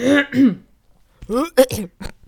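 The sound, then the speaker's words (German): A person clears their throat during a casual conversation in German, with two short guttural rasps at the start. After a pause come a few more brief voiced bursts. “ich muss mich irgendwie die ganze Zeit räuspern.”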